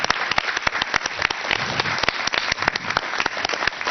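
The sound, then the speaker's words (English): An audience at a school board meeting applauds to welcome a new elementary school principal, with many hands clapping in a steady, dense patter. The applause is moderately loud and holds evenly throughout. “And I'd like to introduce to the board Mr. Rick Mayfield. Let's give Rick a welcome.”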